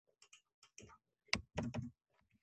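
Typing on a computer keyboard while writing in Word: quiet, irregular clicks and short bursts of keystrokes, with no talking.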